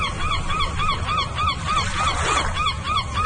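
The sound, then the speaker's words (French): Seagull cries come in a rapid, regular series of harsh, nasal calls, many in a row. They are loud and continuous over a rough background hiss, with no voices present. “La mouette est un palmipède qui vit en poésie. Entre culture et confiture, comme Paul Verlaine, vous aurez entendu son cri.”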